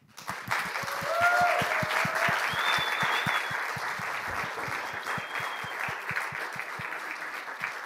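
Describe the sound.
Audience applause welcoming a speaker at a talk: a sustained, even wash of many hands clapping that swells early and continues steadily for about eight seconds without voices.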